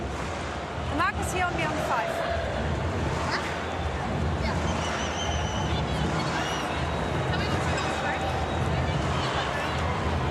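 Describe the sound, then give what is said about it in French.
Stadium crowd at a rugby match roars in a dense, continuous wash of voices as fans get behind the French team against New Zealand, holding steady throughout while a voice talks over it. “Écoutez le public là qui commence à donner de la voix. Ça va pousser derrière les Bleus. Ça commence déjà à chanter pour l'équipe de France.”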